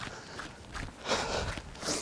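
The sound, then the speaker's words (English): Running footsteps of a person outdoors in daylight, a steady rhythm of soft thuds and scuffs across two seconds. “I'm out running in daylight.”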